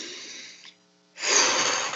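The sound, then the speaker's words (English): A deep breath drawn in: a soft breathy rush fades away, then after a short pause a louder, sustained airy intake of breath fills the final second, with no talking. “So we breathe it in.”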